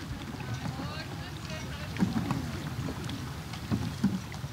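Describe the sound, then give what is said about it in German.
Paddles working a boat across a lake, a continuous wash of water with soft, irregular splashes and strokes rising slightly above a steady low rumble. “Die Inselabenteurer haben inzwischen ihren Paddelrhythmus so halbwegs gefunden.”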